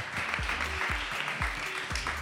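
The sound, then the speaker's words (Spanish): Audience applause in an auditorium for a first-time performer: a dense, steady patter of many hands clapping over a regular low thumping beat. “Un aplauso para Chino Petunia, que es la primera vez.”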